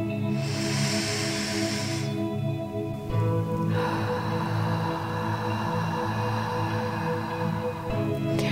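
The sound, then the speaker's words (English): Deep breaths drawn in during a guided breathing exercise, soft airy hisses that rise out of a steady, quiet tonal drone, one early and a longer one later. “So breathe in now and open yourself up.”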